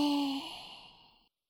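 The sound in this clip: A slow exhale during a breathing exercise: a single soft breathy outbreath that begins with a faint voiced tone and fades gradually to silence over about a second.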